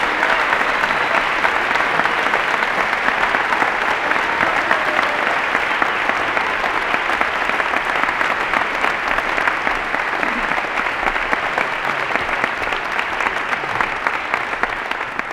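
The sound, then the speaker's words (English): An audience gives loud, sustained applause for the MC, a police chief called up on stage, with dense, steady clapping that holds at an even level from start to finish. “Big hand for the MC.”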